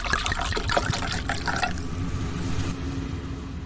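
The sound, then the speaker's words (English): A cold drink is poured after opening. A bright, fizzing trickle with small crackles lasts about a second and a half, then settles into a softer, smoother flow that fades, with no talk. “Let's crack open a cold one. Here we go. Crack open a cold one.”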